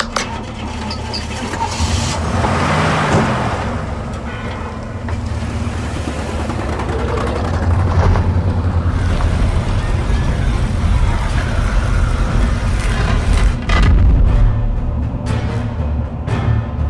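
Engines of military convoy vehicles driving, a steady, loud, low rumble and drone that continues throughout with slight swells in level and no clear breaks.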